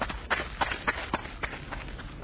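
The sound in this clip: Running footsteps as a fleeing man bolts from spear-carrying pursuers: a quick, steady series of sharp footfalls in an even, brisk rhythm, fairly loud and with no other sound over them.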